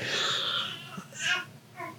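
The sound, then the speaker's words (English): A 4-month-old baby boy crying as he wakes up: a few short, faint, high wails and whimpers with soft pauses between them. “As my son is waking up, so you might hear some crying in the background.”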